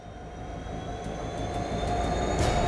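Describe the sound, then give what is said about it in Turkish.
Train locomotive reversing to couple five rail wagons: a steady low mechanical rumble with a faint high whine grows slightly louder, with a few faint metallic clicks on top. “Baştan başlayıp tek kancaya 5 vagon takacağız. Hepsi ayrıldı, geri geliyorum, tamam.”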